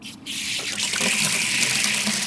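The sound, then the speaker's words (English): Colorado River water, brought by canal, gushes from a backyard faucet in Phoenix. It starts as a brief quieter spurt, then settles into a loud, steady, continuous rushing hiss with no voices. “That is the sound of the Colorado River coming out of the faucet in my backyard.”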